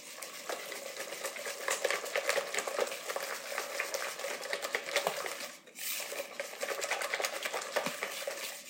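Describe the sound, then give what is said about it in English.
A whisk beats pumpkin batter in a bowl with fast, continuous, rhythmic scraping and clicking. The sound stays steady throughout, apart from a brief break past the midpoint. “Okay, there's the other half cup of pumpkin. I just barely scraped by with enough pumpkin. And we're whisking together.”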